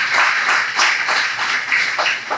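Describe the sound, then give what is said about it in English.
Audience applause at a live event, dense and steady clapping from many hands that stays loud throughout with small surges in intensity. “Give Urban Roots a round of applause.”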